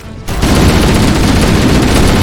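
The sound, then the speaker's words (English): Rifle gunshots in a rapid, unbroken burst that starts after a short quiet moment, then stays loud and dense with overlapping cracks and booms until the end. “it's just so satisfying to hear these gun sounds. Just gun sounds over and over and over again. It's just so soothing. Is it really? Yeah. Particularly the rifle.”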